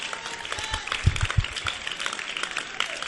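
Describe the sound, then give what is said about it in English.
Thin, uneven clapping from one section of an audience at a church service, with scattered hand claps and a few duller low thumps near the middle, never building into full applause. “Only this section here are clapping.”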